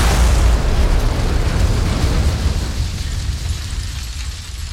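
A bomb explosion that brings down a museum: a loud, broad, rumbling roar that starts at full force and slowly fades, with no voices.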